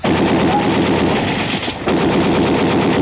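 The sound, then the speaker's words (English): Loud, rapid automatic gunfire blasts the lock on a door in a tense standoff. Continuous bursts crackle at a steady rate, break off briefly near the middle, then resume at full strength. “Keep the windows covered. I'm going to blast the lock on the door.”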